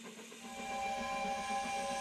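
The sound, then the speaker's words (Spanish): A steam train sound effect with a whistle: continuous hissing steam mixed with sustained whistle tones, rising slightly in loudness during the first half second and then holding steady to the end. “El Tren de la Cultura. Desde las 3 de la tarde, enciende su motor y te lleva por las siguientes estaciones.”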